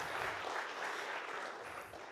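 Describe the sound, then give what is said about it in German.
Steady applause from an audience at a church service, a dense, continuous patter of clapping that holds an even level and eases slightly toward the end. “ihr könnt mal einen Applaus geben dafür”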